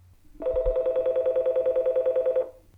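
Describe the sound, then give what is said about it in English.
Telephone tone after dialing a number: one steady, rapidly pulsing electronic tone lasting about two seconds, clear and alone, with no voices. “Let me see if I can dial this. Hold on, bear with me just a second. Okay, here we go. And it's dialing.”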